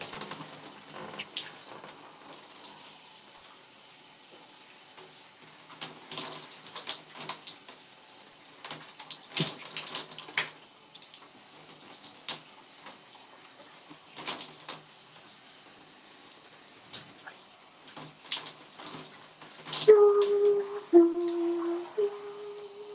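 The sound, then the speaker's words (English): Water running while conditioner is rinsed out of long hair, a steady hiss of flowing water with irregular splashes and surges as the stream strikes the hair, fairly faint throughout, with no talk. “And then I'm gonna rinse out my conditioner.”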